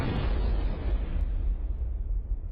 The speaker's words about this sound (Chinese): 砰的一声闷响，手榴弹在他口中爆炸。